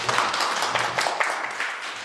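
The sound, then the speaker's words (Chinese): Clapping from an audience at an academic salon in a bookstore, welcoming a guest speaker, a historian. The claps are fairly loose and scattered, moderately loud, and ease off slightly toward the end. “大家掌声欢迎”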